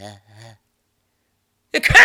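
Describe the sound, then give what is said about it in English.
A sneeze during a spoken ad read: a few short voiced sounds, then a silent pause, then a sudden loud, harsh burst of breath and noise at the end. “That was a sneeze read.”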